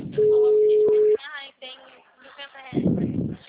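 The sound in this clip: An unanswered telephone call rings with a single steady, low beep lasting about a second over a narrow phone line, followed by voices.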